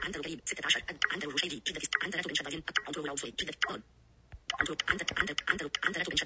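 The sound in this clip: Keyboard typing as place names are entered, a run of quick, uneven clicks under almost constant talk, broken by a short quiet pause partway through.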